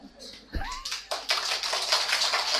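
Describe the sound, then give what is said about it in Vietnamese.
Audience clapping at a Buddhist monk's teaching talk. A brief voice is followed by a fairly faint burst of many hands clapping that continues steadily to the end. “Quý vị vỗ tay là mừng cho thầy phải không?”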